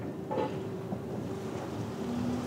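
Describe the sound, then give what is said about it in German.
A small, fast passenger ferry shuttling between Norddeich and Juist, heard as a faint, steady low rumble with wind and water noise and a thin tonal hum running through it. “Eine seiner kleinen Schnellfähren, die mehrmals täglich zwischen Norddeich und Jüst pendeln.”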